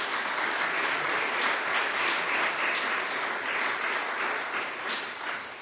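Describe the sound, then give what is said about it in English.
Audience applause at a political science conference: steady, dense clapping from many hands that continues throughout and eases slightly toward the end. “Thank them very much for bringing us this conference and for all the great things that they do for the Charles and Louise Travers Department of Political Science. Give them a hand, if you will.”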